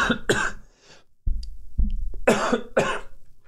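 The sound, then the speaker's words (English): A person coughs in several harsh, throaty bursts: a quick pair at the start, then after a short pause a further series of rough coughs, loud and with no talk. “okay, see if I can get through this without coughing.”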